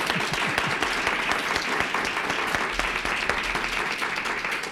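An audience applauds to welcome painter Walter Rane at a live interview event. The clapping is dense and steady, holds an even level throughout, and no one speaks.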